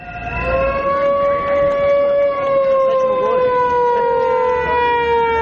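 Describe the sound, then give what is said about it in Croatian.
Sirens and whistles from several hundred opposition supporters protesting at the main entrance of a state television building: a loud, continuous wailing tone with bright harmonics, sliding slowly downward in pitch. “Tačno u podne nekoliko stotina pristalica opozicionog Saveza za Srbiju je, noseći transparente i uz zvuke sirena i pištaljki, stalo na glavni ulaz zgrade Radio Televizije Srbije.”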